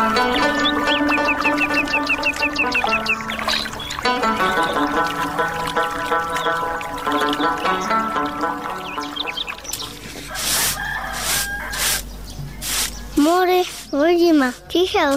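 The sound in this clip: Chickens cluck and call in a short burst of wavering, sharp fowl sounds near the end, following a long stretch of layered melodic music.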